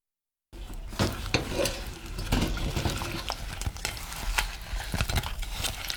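Fried sweet potato pieces are stirred into syrup in a pot. After a brief silence come continuous scraping and sizzling with scattered clicks and taps, moderately loud throughout.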